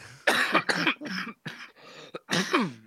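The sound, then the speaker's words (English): Harsh, raspy coughing from a person with a persistent cough: a rapid run of loud, breathy bursts separated by short gaps, with the last one longer and rougher. “this fucking cough's doing me head. When I laugh, it makes me even worse.”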